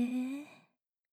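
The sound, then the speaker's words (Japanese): A single slow, voiced sigh of breath out, part of a guided relaxation breathing exercise. It is soft and steady, then fades away in under a second, alone with no talk. “ゆっくり吸って、吐いて、大きく吸って、吐いて、”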